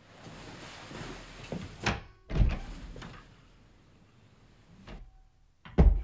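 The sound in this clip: A door is opened and closed inside a house, giving a few dull thuds and knocks separated by quiet stretches, with the last knock the loudest.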